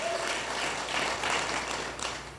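A church audience applauds to welcome first-time guests, giving a steady, even wash of clapping that holds for about two seconds before easing slightly at the end.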